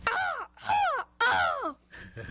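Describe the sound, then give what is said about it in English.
A person imitates a crow call, giving three loud, harsh caws, each falling in pitch, in a slow rhythm, then a softer, shorter sound at the end. “What are some other calls that you know? I know a crow. Can you do it?”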